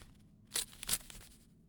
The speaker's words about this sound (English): Let us open the envelope.